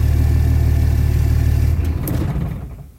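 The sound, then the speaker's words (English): A Cummins 5.9 diesel from around 2005 idles with a steady, loud, low rumble and light clatter, then dies away toward the end. “I love when they idle themselves to death, so we turn them off. I'm going to say this is like, I bet you this is like a, what, a 2005-ish, somewhere in there, right?”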